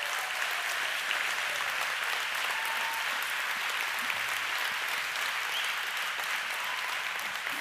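Sustained audience applause during a church sermon, a dense, even wash of many hands clapping that holds at a steady level for the whole stretch, with no voices standing out above it.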